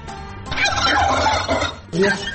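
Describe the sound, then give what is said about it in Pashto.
Turkeys gobble loudly on a turkey breeding farm in Takhar, Afghanistan. A long burst of rapid, warbling gobbles overlaps for over a second, breaks briefly, then resumes. “د تخار څخه به تاسو ته یو رپورټ خپور کړو چې هلته د فیلمرغانو د روزنې او پالنې یو فارم”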